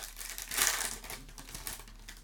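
Crisp crinkling of a hockey card pack wrapper being torn open, loudest in a short burst near the middle and then softer rustling that trails off.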